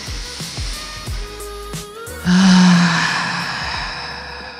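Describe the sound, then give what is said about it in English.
A few people draw a deep breath together: a sudden loud, airy rush of breath swells midway through and then slowly fades away. “Let's take a deep breath.”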